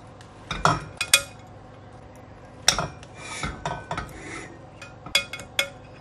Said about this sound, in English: shall we just cut into it and have a little look how it looks inside?